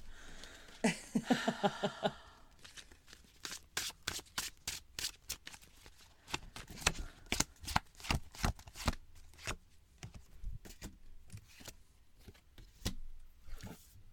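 Tarot cards are shuffled: a quick riffling burst gives way to many sharp, dry snaps and clicks of cards being cut and flipped, fairly faint, in an irregular rhythm with no talk.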